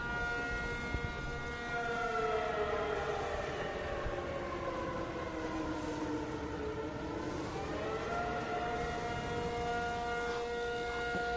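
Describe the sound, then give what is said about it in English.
Wailing air raid siren sounding during an annual citywide drill in Taipei, a loud, continuous tone whose pitch sags slowly then climbs again, holding steady for the whole stretch with no voices. “What that is exactly is the annual air raid drill that takes place here in Taipei, usually in the month of June.”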